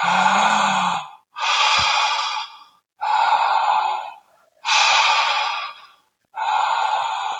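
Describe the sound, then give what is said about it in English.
Deep full-body breathing through a wide-open mouth: five long, loud, breathy breaths follow one another with only brief gaps between them. No speech is heard. “Full body breaths, keep your mouth wide open. Now, the third instruction is to keep your breath connected with no pauses at the top or the bottom.”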